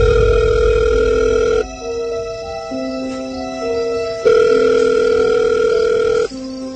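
Telephone tones sound as a call is placed, a series of steady electronic tones held for a second or two each. The pitch pattern shifts from one segment to the next, with no talk.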